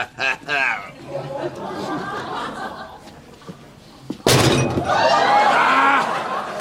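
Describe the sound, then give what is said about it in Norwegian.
Something banging inside a cake tin, one sharp, loud metallic crash partway through, with people chatting and chuckling before and after it. “Dæven, den smalt i kakeboksen!”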